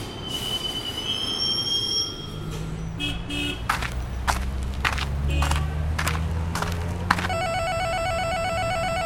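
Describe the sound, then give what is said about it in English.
Train wheels squeal as a train arrives at a downtown rail station: high, thin screeches at the start give way to a steady low rumble, and a repeating ringing chime tone sounds near the end. “Now arriving downtown Santa Monica Station.”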